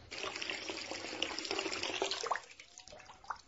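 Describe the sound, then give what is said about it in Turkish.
Tap water runs as someone washes their face, a soft steady splashing rush that stops after a couple of seconds, leaving a few faint drips and small handling sounds. “Yüzümü yıkayıp kendime geleyim.”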